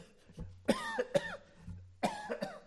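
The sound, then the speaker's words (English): A voice imitates a man's hacking cough at night with a few harsh, voiced coughing bursts. The bursts come in two short groups separated by a pause. “He has this hacking cough. He's coughing and she's turning in the bed.”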